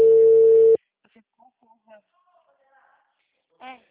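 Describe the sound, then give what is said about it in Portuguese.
A telephone call tone: one steady, loud electronic beep lasting under a second, then near silence broken by faint, scattered murmuring voices. “Tô tentando ligar, não atende.”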